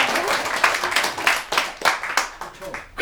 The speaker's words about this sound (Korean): 박수 한번 더 드리고